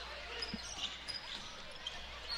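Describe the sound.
A basketball is dribbled on a court during a game, giving a few dull bounces, one standing out clearly, under steady crowd noise.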